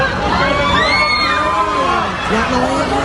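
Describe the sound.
Bystanders scream and shout as a woman jumps from the fourth floor of an apartment building. Loud overlapping cries from a crowd rise and fall continuously, with no pause.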